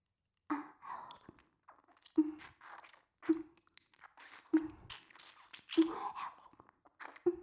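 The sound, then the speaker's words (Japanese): Close, wet ear licking with a series of six slurping bursts, each opening with a low voiced hum and trailing into breathy, moist smacks. “ほら、舐められるたび、脳髄までしゃぶられるような気持ちよさが走るよ。”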